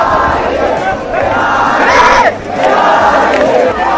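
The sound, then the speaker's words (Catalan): A crowd of young people cheers and shouts at one of the first youth battle competitions in Barcelona, a loud, continuous roar of massed voices that swells in a few surges. “Que jutjar pel que esteu escoltant podria ser qualsevol persona animant, sí, potser en un partit de futbol, eh? Aquest és el so, per això, d'una d'aquestes primeres batalles a la ciutat de Barcelona.”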